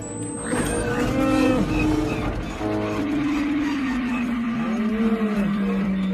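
Vehicles swerving in a film chase scene: a continuous engine whine with sliding tones throughout, a sustained tone gently falling in pitch toward the end, and steady loudness.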